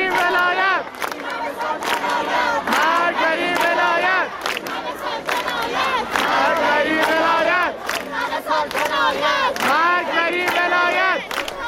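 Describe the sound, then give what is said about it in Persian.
Large crowd of students chanting together at a university protest rally in Isfahan, loud shouted phrases repeating in a steady rhythm with short gaps between them, filling the whole clip. “صدای همه دانشجویان دانشگاه صنعتی اصفهان رو میتونیم بشنویم.”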